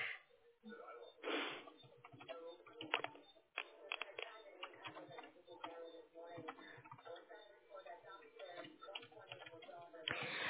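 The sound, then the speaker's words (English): Typing an answer on a computer keyboard: many quick, irregular key clicks in faint bursts, with a voice talking at times. “Just a moment. I need to type your answer. So just okay. Give me a few minutes.”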